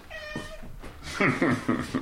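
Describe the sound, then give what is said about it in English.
A cat meows in a high-altitude lookout cabin, giving a drawn-out first call followed by a quick run of shorter, insistent meows at a moderate level. “His faithful companion lounges on the bunk in the corner. That's the cat.”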